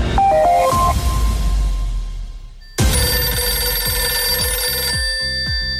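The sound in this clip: A telephone rings on a call line, loud bright tonal rings that break off, then restart near the middle as a sustained, denser ringing with several steady overtones and regular pulses.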